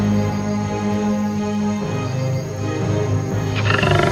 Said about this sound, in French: un rugissement se fit entendre. Un lion sortit du bois majestueusement.